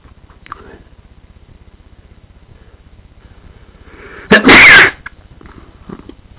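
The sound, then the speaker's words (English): One loud, sharp sneeze bursts out after a stretch of near quiet and a few faint soft sounds. It is a harsh, noisy blast of about half a second that drops back to quiet, with a low steady hum underneath. “until I finally sneeze.”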